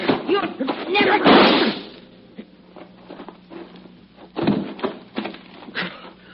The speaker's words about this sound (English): She pushed that rifle barrel up to her neck and then she squeezed the trigger.